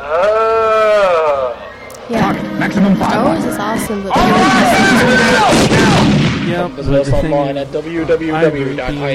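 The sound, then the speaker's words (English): Star Wars blaster fire while storming the Rebel base crackles in bursts of zapping shots, mixed with voices and other effects throughout. “We're storming the Rebel base and blasting soldiers left and right.”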